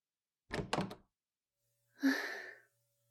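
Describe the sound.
A front door is opened, giving a few quick faint clunks, then after a pause a longer soft scraping burst, with no voices.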